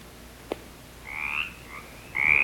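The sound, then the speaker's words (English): Mountain chorus frog calling: a few short, raspy, rising calls with a faint click just before them, heard alone over a low background. “Okay, so mountain chorus frog.”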